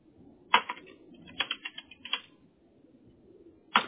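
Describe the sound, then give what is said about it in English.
Typing on a computer keyboard: short clusters of crisp keystrokes separated by brief pauses, with one more lone tap at the end. “And now I'm going to type out all of those keywords.”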